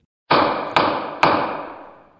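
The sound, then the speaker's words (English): A gavel strikes three times at an even pace. Each sharp wooden knock is followed by a ringing tail that fades out, and no voices are heard. “This is the sound of a gavel on that one.”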